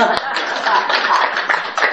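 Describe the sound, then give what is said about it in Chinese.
An audience applauds at a talk on mental health, with dense, continuous clapping that stays loud across the whole stretch and voices mixed in. “今天我就教大家怎么才能够保持心理健康啊，请给我掌声。”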